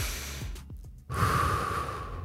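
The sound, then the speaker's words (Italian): Slow, calm breathing imitating a sloth: after a brief pause, one long, soft, steady breath of airy hiss that continues evenly to the end. “il respiro del bradipo. Come potrebbe respirare un bradipo che va lentissimo? Tutto tranquillo, tutto lento, ok?”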